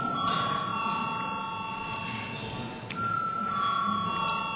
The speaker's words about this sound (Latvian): Lūdzu zvanu.